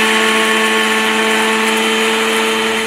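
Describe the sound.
A mixer grinder powders dry roasted spice masala with a loud, continuous whirring whine and a steady tonal hum that holds without change throughout.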